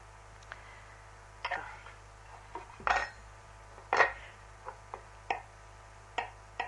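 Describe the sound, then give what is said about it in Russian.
Knife cutting vegetables such as carrot into small cubes for a cooking lesson, with many sharp, irregular taps and clacks on a board, some louder than others, separated by short pauses. “И овощи надо резать на мелкие кубики.”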